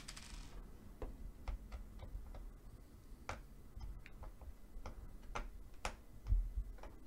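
Many screws are removed from a box, producing faint, sharp clicks and ticks at an irregular pace, with a dull knock near the end.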